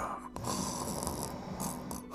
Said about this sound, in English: How can a car snore?